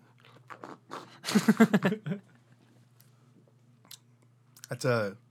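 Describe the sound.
Sipping and swallowing while tasting a hoppy ale, with faint mouth clicks, then a quick run of slurps and gulps, ending in a short voiced sound, all quiet and close.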